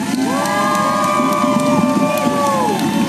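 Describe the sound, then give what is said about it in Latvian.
A crowd in east London applauds and cheers as the Robert Milligan statue is taken down. Several sustained whooping voices ride over a steady bed of crowd noise. “Aplausu pavadībā Londonas austrumos jau novākta Roberta Milligana statuja.”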